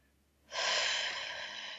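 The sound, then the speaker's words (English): One deep breath drawn during a guided breathing exercise: after a near-silent start, a soft, airy rush of air begins abruptly and holds steadily for over a second, with no talking. “This breathing in through the nose deeply, out through the mouth”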